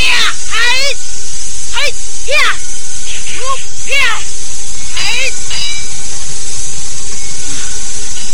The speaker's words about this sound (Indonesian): Minggir dan menjauh kau ular jahat.